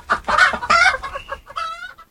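Free-range hens clucking in a few short, loud, rhythmic bursts, with a higher, drawn-out cackle near the end.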